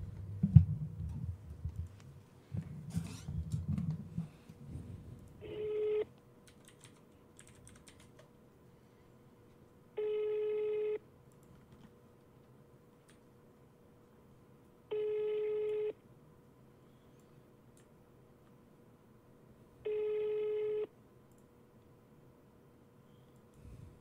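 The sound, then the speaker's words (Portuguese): Ringback of an outgoing telephone call: four steady tones about one second long, spaced roughly five seconds apart. A burst of keyboard typing comes before the ringing. “Bora ligar lá.”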